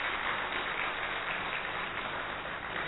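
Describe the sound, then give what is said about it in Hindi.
Audience applause welcomes a speaker onto a stage, an even, continuous patter of many hands clapping, fairly faint. “तो हम सभी उनका करतल ध्वनि से स्वागत करते हैं।”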